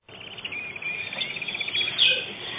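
Small birds chirp in a sunny garden beside a house, a steady stream of quick, high twittering calls with a few brighter, louder notes near the end.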